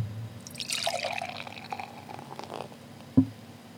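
Beer poured into a glass makes a soft, steady fizzing rush that swells in the first second, then thins and fades, ending with a single short knock near the close.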